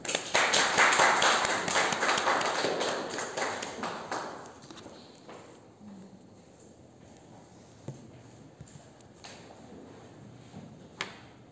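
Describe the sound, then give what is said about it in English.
Applause welcoming a guest speaker: a burst of clapping lasting about four seconds that thins out and fades, leaving only a few scattered taps and knocks. “Let's welcome him. Give him a big hand.”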